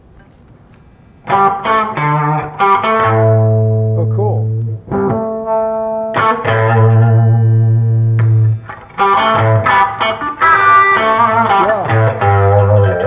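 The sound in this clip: Electric guitar with pickups switched out of phase, Gibson scale length, producing a thin, nasal, quacky tone; chords and single notes ring out in several phrases separated by short gaps, with a voice briefly speaking.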